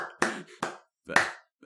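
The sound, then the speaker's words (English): A few sparse hand claps, soft and sharp, separated by short irregular pauses, with quiet between them. “thanks for the clapping. I appreciate it.”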